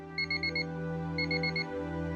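Rapid electronic beeps from a bedside alarm clock come in two short bursts of about six tones each, with a third burst just beginning. They sound over a steady low hum.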